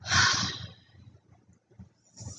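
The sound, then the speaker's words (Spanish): A single deep exhale during a guided breathing exercise: a loud, breathy rush of air at the start that tapers away, followed by quieter, softer sounds. “Exhalo grande.”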